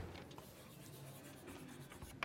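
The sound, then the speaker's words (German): Faint handwriting during a maths exercise: quiet, irregular scratching strokes on paper, with a slightly sharper tap near the end. “Okay, ich schreibe mal so.”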